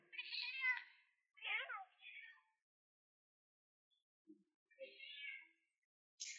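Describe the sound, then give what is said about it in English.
A person imitates a cat's meow, voicing a black bear in a tabletop role-playing game: a few drawn-out, high, wavering meows with short gaps, the last ones shorter and fainter. “Black bear starts meowing.”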